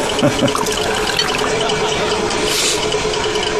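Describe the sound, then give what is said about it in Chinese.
Liquor pours into a cup during a toast at a banquet, giving a continuous splashing, trickling hiss that stays fairly loud and even for several seconds. “把酒给你满上，把酒满上，三杯，连干三杯”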